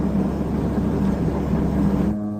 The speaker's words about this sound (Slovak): Po vzlietnutí je atmosféra medzi posádkou AN-24 taktiež príjemná. Ak pôjde všetko podľa plánu, lietadlo o 2,5 hodiny pristane na letisku v Košiciach.